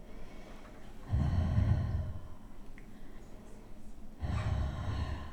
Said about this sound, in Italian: Inspira, espira.